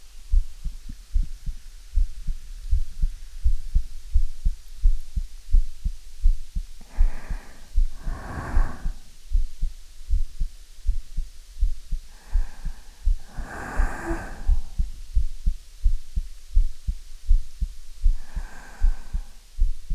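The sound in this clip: A heartbeat pulses steadily throughout, with many regular low thumps. A few louder, breathy, rasping bursts are layered over the rhythm at intervals.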